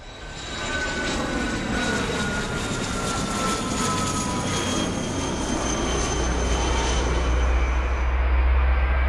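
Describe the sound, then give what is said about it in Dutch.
Airplane taking off from an airport about a kilometre from a village, a continuous broad jet roar with thin whining tones that grows gradually louder and heavier in low rumble toward the end, with no voices. “Wat horen we hier? Wat is dit? Een vliegtuig gaat weg.”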